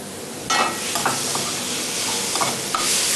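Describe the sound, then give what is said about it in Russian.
Garlic, onion, pepper and zucchini sizzle while stewing in a pan, a constant frying hiss broken by a few brief scrapes of stirring. “Этот тушится у меня чеснок, лук, перец, кабачок. Все, что я нашел в огороде.”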